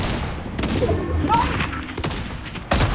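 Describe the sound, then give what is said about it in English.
Shotgun blasts during a close-range shotgun fight in a video game: several sharp, heavy reports cut through a dense, noisy layer of game sound, with the loudest shot near the end. “Get him, Monarch! You can win a shotgun fight.”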